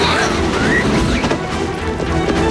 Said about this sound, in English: An officer rappels down the building. Glass breaks and he swings in.